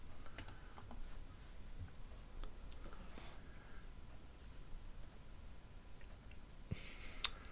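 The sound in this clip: Faint, sparse clicks of a computer mouse button, a few scattered sharp ticks over a steady background hiss, with a tighter cluster near the end.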